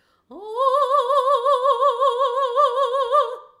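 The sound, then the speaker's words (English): Mock operatic singing: one long sustained note with an exaggerated, wide and wobbly vibrato that pulses steadily from start to finish, sung alone and loud with no accompaniment. “When people make fun of opera singers, what do? They sing a sound like this.”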